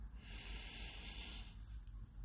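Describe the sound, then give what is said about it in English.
A deep inhalation through the nose during a guided cleansing-breath exercise: a soft, steady airy rush of breath lasting about two seconds, quiet and unbroken, with no voices. “Taking a deep inhalation through the nose.”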